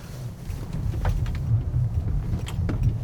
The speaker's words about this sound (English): We are driving in snow. Lots of snow.